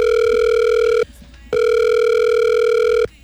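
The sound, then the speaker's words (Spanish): Loud telephone ringing tone as a voice assistant places a call: two long, steady, even-pitched tones separated by a brief gap, with no talk over them. “Siri, márquele ahí a mi candidato. Claro, mi querido presidente, marcándole al candidato presidencial.”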